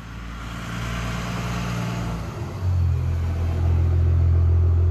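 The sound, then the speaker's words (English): A truck drives past: a steady low engine rumble that swells and deepens partway through, then holds as a loud, heavy drone with no talk. “wait till this truck goes by.”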